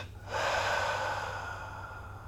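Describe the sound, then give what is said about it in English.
A deep held breath is released during a breathing and muscle-squeezing exercise, one long, airy exhale that starts abruptly, rushes softly and fades gradually over about two seconds. “Inhale, hold the breath, squeeze up all those muscles again, feel that life energy flowing through, and then release.”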